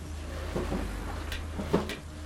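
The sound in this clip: A door being opened, heard as a few faint clicks and rattles of a latch over a steady low hum, with one slightly louder click near the end.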